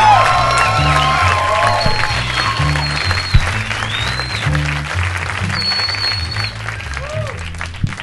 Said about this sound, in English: How about a round of applause for Chuck?